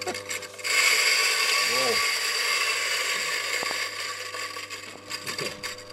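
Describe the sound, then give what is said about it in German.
Electric grinder milling black and white peppercorns: a steady mechanical whirring and rattling grind that starts after a moment and runs continuously for several seconds. “frischen Pfeffer mahlen. Was wir dann hier haben, mahlen wir jeden Tag selbst, weil das das Hauptgewürz ist. Einfach dort runterhalten und hier einschalten.”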